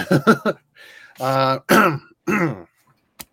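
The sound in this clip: Throat clearing from a phlegmy throat after a recent bout of strep, heard as several rough, voiced hacks and grunts in quick succession, then a pause and a faint click.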